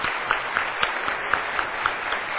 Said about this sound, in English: Then let's have all of our veterans please stand. You've served in the armed forces. Stand to your feet. Round of applause.